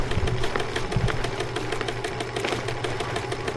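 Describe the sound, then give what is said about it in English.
A sewing machine stitches fabric with a steady mechanical whir and a fast, even ticking pulse that runs through the whole stretch at a constant level, with no voices. “Could you grab the edge of that material, pull it out straight, and walk it toward that wall as I sew?”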